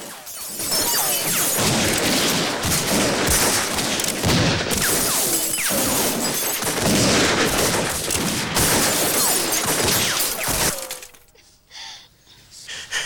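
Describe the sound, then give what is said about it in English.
Gunmen fire a barrage of gunfire at a house: dense, rapid shots mixed with shattering glass and crashing impacts. The volley runs for about eleven seconds, then cuts off abruptly into near quiet with a few faint sounds. “The gunmen launch a barrage of fire at the house.”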